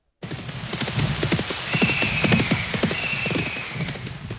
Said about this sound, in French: Après quelques heures de voyage à cheval,